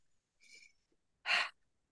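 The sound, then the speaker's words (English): A soft, airy breath is followed by a louder, sharper deep intake of breath, with near silence between the two. “I'm going to take a deep breath with my hand on my heart”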